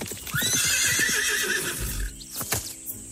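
A horse being ridden lets out a long, loud, wavering whinny, and a few sharp hoof clops follow as the neigh fades.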